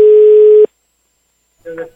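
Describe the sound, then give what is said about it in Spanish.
A single steady telephone tone heard while dialing a call. It holds one clear pitch for about half a second, stops abruptly, and is followed by silence and then a brief, faint, muffled sound. “Por ahí voy, estoy marcando.”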